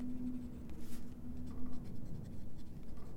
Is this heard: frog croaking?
no